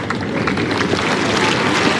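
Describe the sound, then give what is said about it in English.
Steady crowd applause at a professional tennis match after a serve ace, an even, dense wash of clapping that holds at a constant level from start to finish. “The applause is not for Lady Eleanor's latest pun. It's an ace for Thomas Martin Echeverri to start his latest service game.”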